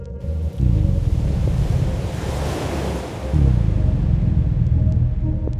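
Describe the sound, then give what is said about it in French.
Floodwater rises in underground tunnels with a loud, steady rushing roar of moving water over a deep rumble, swelling stronger partway through and then holding. “la montée des eaux dans les temps souterrains se poursuit impitoyable. Gabriel Thompson se retrouve pris au piège comme un animal sauvage. L'eau s'approche de plus en plus de lui, le submergeant progressivement”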